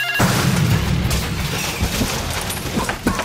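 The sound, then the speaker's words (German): An explosive charge detonating as a burglar-alarm booby trap: a sudden blast breaks into a loud, sustained roar with deep rumble, holding for about three seconds with slight fluctuations. “Schon beim kleinsten Geräusch wird automatisch ein Sprengsatz gezündet und...”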